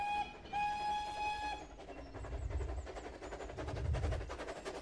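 A train arrives at a railway station, opening with a sustained whistle-like tone, then a steady rhythmic clatter of wheels over rail joints with rumbling carriages, all faint.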